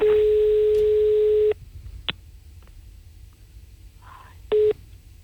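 Telephone call tones on a line to medical emergency services, placed from the top of a ravine: a long steady tone, then a brief click, then a short second tone, with faint line hiss between.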